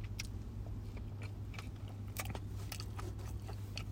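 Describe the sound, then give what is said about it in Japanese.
Crunchy bites and chewing come from a 7-Eleven vegetable mix sandwich with crisp tomato. Several sharp, crisp crunches occur at an uneven pace over a low, steady hum. “いや、これ、美味しい。うん。トマトの歯応えもシャキシャキしてるんですよ。”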